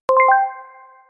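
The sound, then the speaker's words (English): An email notification ping, a quick cluster of bright, bell-like electronic tones that ring out and fade over about a second, heard alone. “let's take the example of an email ping.”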